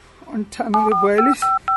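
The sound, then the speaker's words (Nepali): Telephone keypad dialing tones: a voice speaks briefly, then two short, clear electronic beeps follow, separated by a small gap. “एकचोटि चाहिँ phone चाहिँ गर्छु है एकछिन थामा नम्बर पनि कता गयो फेरि ए भेट्यो भेट्यो”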